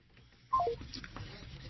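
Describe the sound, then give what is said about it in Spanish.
Telephone tones sound after a call is cut off: a quick run of three stepped, falling electronic beeps, followed by faint, low background noise. “Se nos cortó la llamada con la consejera Dania Ravel Cuevas del Instituto Nacional Electoral.”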